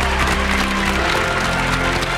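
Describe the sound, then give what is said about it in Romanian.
Studio audience applause at a television entertainment show: dense, steady clapping that holds at an even loudness across the whole moment. “Mulțumesc, mulțumesc pentru aplauze!”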